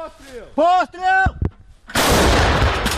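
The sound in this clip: Artillery fires from a Ukrainian battery on the eastern front line. Shouted voices come first, then a couple of sharp cracks and a heavy, loud blast that rolls on and sustains to the end.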